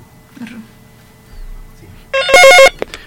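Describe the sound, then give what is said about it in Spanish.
Telephone ringtone announcing an incoming call: a short burst of bright, warbling electronic tones that rises loud and clear out of faint, low background noise. “A ver, tenemos una, una llamada.”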